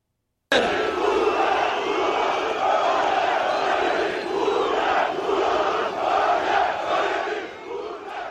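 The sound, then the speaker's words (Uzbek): A crowd at a political rally roars and shouts in a dense, continuous mass of voices, loud throughout and easing slightly at the end. “Uning so'zlarini xalq olqishlar bilan kutib olgan, kimni uraylik ayting uramiz, kim uchun jon fido qilaylik ayting qilamiz deya shiorlar yangradi.”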